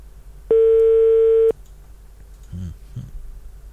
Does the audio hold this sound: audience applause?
no